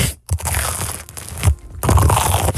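Crunching bites into a cheese sandwich held right against the microphone: loud, harsh crunches and rustles come in a few bursts split by brief gaps, ending in a dense crackling stretch.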